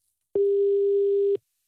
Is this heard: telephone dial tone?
yes